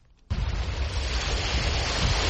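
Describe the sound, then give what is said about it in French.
Sea waves break on the shore near Dakar's port, where an industrial wastewater canal empties into the sea. After a brief quiet moment, a loud, broad wash rushes in abruptly and holds as a continuous roar. “Ici, les vagues viennent accueillir les eaux usées du canal 6 qui traverse une zone industrielle à quelques encablures du port de Dakar.”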